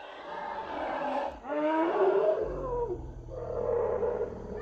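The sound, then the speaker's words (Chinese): A well-fed elephant calls out to its companions with a loud, harmonic roaring bellow that surges and swells in a few waves, a deep rumble running beneath. “可算叫了这大象，终于啊！”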